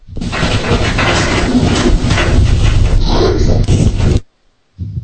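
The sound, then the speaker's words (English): The springs of pull-down attic stairs bang and rattle as someone climbs a rickety ladder, making a dense, loud, continuous clatter for about four seconds that cuts out briefly and then resumes. “what happened there is in this house, they have pull down stairs, and a lot of that banging sound is the springs as you're trying to climb up this rickety ladder”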